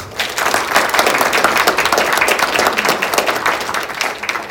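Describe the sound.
Warm audience applause greeting a speaker introduced for a talk on Catholic morality: loud, dense clapping from a crowd, holding a steady level throughout with individual claps crackling through the mass.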